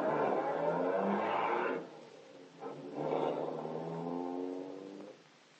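Car engine roaring as the car drives off: a loud, steady engine note for about two seconds, a brief lull, then a second stretch of engine noise that gradually eases before cutting off.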